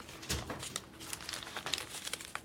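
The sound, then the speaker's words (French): Paper documents crinkle and crumple as they are handled, producing many irregular, fairly faint crackles and rustles with small sharper snaps scattered through. “Vous allez les déchirer, il faut les humidifier. J'ai besoin de ces documents.”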